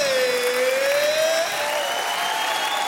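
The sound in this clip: Audience applause at a Radio France Philharmonic Orchestra concert, a steady wash of clapping that lasts throughout, with a faint sustained tone running through it.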